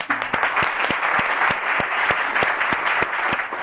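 Applause in the Alaska legislative chamber in Juneau welcomes a high school guest page and her father. Several sharp, evenly spaced individual claps stand out above a dense, steady bed of clapping.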